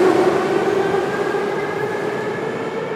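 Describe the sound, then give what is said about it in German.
A metro train passes through a station with a loud, steady rumble and a sustained whine that slowly fades over a few seconds. No one speaks. “So, jetzt ist die Metro vorbeigefahren. Ich bin jetzt hier an der Metrostation Uschot”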